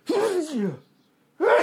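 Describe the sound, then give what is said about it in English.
A person sneezes: one loud voiced burst whose pitch falls over about half a second, then another voiced burst starts after a short silence. “I'm going to sneeze.”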